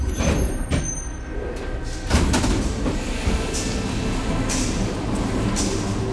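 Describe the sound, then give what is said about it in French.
A metro train screeches as it pulls away and heads into an underground tunnel, a loud, continuous rumbling roar with a few sharp, higher bursts rising out of it. “dans un crissement strident, le métro démarre et s'enfonce dans le tunnel souterrain pour rejoindre la prochaine station, Porte Dorée.”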